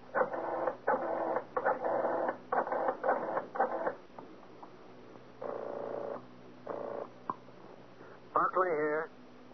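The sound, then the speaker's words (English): A telephone being dialed: a fast series of short whirring, clicking bursts, then a few longer pauses between bursts, ending with a brief warbling tone. No one speaks. “Better yet, I'll dial and have him speak with you.”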